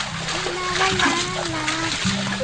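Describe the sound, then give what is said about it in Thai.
Water splashes and sloshes as someone washes with soap and water, a steady wet splatter running under a voice that speaks throughout. “และเมื่อเขาล้างตัวด้วยสบู่และน้ำเขาก็เริ่มรู้สึกดีขึ้น”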